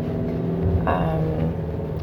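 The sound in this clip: Car driving on the road, heard as a steady low engine and road rumble with a slight swell in the middle, continuous and without voices.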